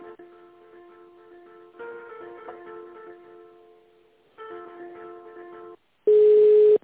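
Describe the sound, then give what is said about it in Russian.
Telephone tones play while an office call is transferred to the director: a few stretches of soft electronic melody separated by brief gaps, then a loud, steady single-pitched beep at the end. “Так, сейчас, секунду, подождите, я вас соединю с нашим директором, с ней переговорите.”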